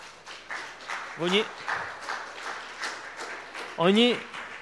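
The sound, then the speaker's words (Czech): A church audience claps in a steady, moderate wash of many hands. Voices call out loudly over it twice. “Oni tleskají tomu, že jsi jim řekl, že jsou na prd.”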